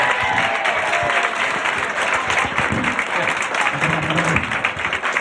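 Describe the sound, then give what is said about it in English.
Audience applause at a magic show as a volunteer is called up on stage: dense, steady clapping that holds at an even level for several seconds. “Let's give him a big hand and get him up here.”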